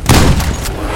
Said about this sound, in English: In a swift motion, he pressed the gun to her temple and fired.